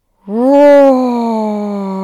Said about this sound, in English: roar with your tongue out. Go ahead and continue doing the lion's breath